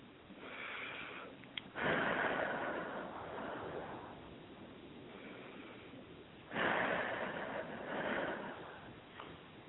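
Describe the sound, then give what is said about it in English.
A person takes deep breaths: two long, airy, fairly faint breaths, each swelling and easing away over a couple of seconds, with no talk. “take a couple of deep breaths”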